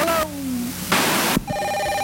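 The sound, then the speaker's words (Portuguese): An electronic telephone ringtone like a 1970s intercom, steady buzzy tones broken midway by a loud burst of hiss before the tone resumes. “Caramba, a produção não mete mais nenhum toque do telefone.”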